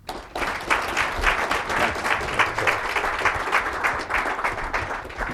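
Audience applause welcomes General Mike Hostage to the stage: dense clapping starts abruptly after a brief quiet moment and holds steady and fairly loud for about five seconds.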